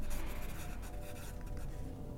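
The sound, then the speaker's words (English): A pen scratches on paper as notes are jotted down, a faint, continuous rubbing scratch with small irregular strokes and no voices. “Just drawing some notes here to myself.”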